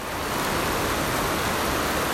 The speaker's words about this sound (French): Il y a de l'eau qui coule le long des poteaux et qui vient s'échouer dans les quais. Et il y a cette pluie battante qui tape sur le toit.